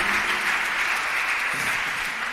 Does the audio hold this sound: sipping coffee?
no